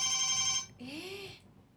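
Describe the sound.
A telephone ringing on an outgoing call: a bright electronic ring tone that cuts off after under a second, then a shorter wavering tone.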